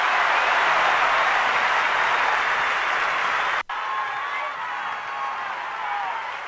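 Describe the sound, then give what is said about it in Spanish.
An audience applauds a performer with dense, continuous clapping mixed with some cheering. The sound cuts out briefly partway through, then resumes a little softer until the end. “Fuerte el aplauso a Jorge.”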